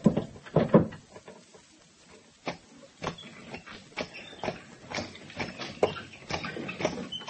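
A horse-drawn wagon pulls away with quiet, irregular knocks and rattles at first. These settle into a fairly even rhythm of clopping hoofbeats and wooden thuds.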